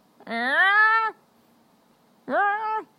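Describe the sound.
A human voice imitates an agitated cat with its hackles raised, giving two drawn-out, tonal yowling meows split by a pause. The first is long and steady, and the second is shorter and tails off.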